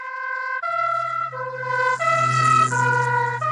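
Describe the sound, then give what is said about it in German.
An emergency vehicle's two-tone siren passes by, its high and low notes alternating loudly over a low engine hum. “lässt sich am besten anhand eines umgangssprachlich genannten Tatütatas demonstrieren, das an euch vorbeifährt.”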